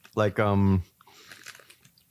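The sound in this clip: Chewing of tiny crunchy protein snack pieces, Trix-sized and cereal-like, sweetened with allulose: a short hummed voice is followed by faint, soft crunching and mouth sounds.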